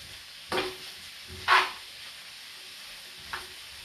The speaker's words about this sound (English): So now the onions are getting translucent. They're getting a little bit of colour to them, which is great. Because I'm using a big pan, it's a lot easier.